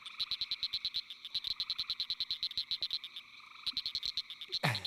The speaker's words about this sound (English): there's some tree frogs calling in the background, which make it a little harder.